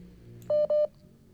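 Telephone dialing tones for a phone call: two short, steady electronic beeps in quick succession, clear and alone.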